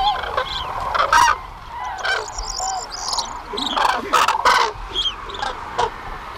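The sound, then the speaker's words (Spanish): A flock of migrating cranes descends toward the Gallocanta lagoon to roost, many loud honking, trumpeting calls overlapping and repeating irregularly over a low background rustle. “Se oye el aleteo, que están bajando, y ahí vienen unos cientos.”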